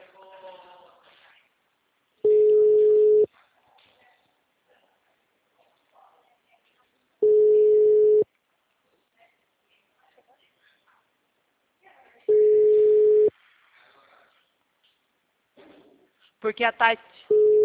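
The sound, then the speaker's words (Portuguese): The ringback tone of an unanswered telephone call: three long, steady, mid-pitched tone bursts about five seconds apart, with another starting at the end and faint voices between them. “Alô? The number is not answering.”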